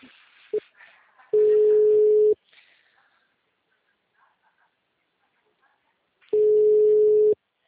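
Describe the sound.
Ringback tone of an outgoing phone call: two steady, mid-pitched tone bursts, each about a second long, separated by a long silence, with a brief patch of faint noise before the first ring.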